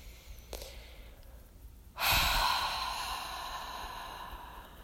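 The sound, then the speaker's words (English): A long, deep breath escapes as a soft, breathy sigh that starts abruptly and slowly trails off over a few seconds. “So take a deep breath.”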